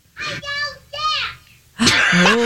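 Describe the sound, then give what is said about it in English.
A young girl has a tantrum, letting out two drawn-out whining cries with falling pitch. A louder, harsher shriek follows after a pause. “She's having a little tantrum.”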